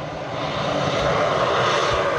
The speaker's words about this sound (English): airplanes dropping water to douse wildfires in Canada's Northwest Territories.